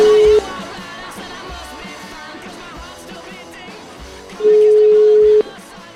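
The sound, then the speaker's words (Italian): Ringback tone of an outgoing phone call: a steady mid-pitched tone cuts off briefly, then one full tone of about a second sounds roughly four seconds later, over a busy background. “Chiamiamo Sgarbone, vai.”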